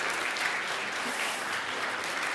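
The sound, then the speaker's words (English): Applause from an audience, a steady, fairly soft wash of clapping hands that holds without pause throughout. “Oh, a round of applause, I think, at least.”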